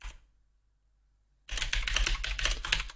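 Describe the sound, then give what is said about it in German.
Rapid keyboard typing as a note is entered onto a list. It bursts in after about a second and a half of near silence and becomes a dense, steady clatter of keys with no talk. “Ich muss hier noch was auf meine schlaue Liste schreiben.”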